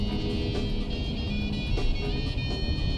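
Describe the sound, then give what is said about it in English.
A car driving down a narrow country lane overshadowed by trees, a steady low engine rumble at an even level. “He drives down a narrow country lane overshadowed by trees. He drives uphill and out into the open.”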